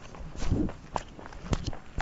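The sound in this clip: Footsteps of a person walking past some cats on the way to a duplex: a few faint, soft steps spaced unevenly, with no talking.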